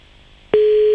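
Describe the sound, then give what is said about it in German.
A telephone tone sounds as a call is dialled again: faint line hiss, then a single steady, loud, mid-pitched tone starts halfway through and holds to the end. “Pass auf, nochmal anrufen.”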